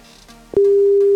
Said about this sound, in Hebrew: ועכשיו אני עומד לחייג לאחד המאזינים שלנו, שביקשו כאן בקשה בשעה האחרונה, בואו נחייג, אנחנו מחייגים.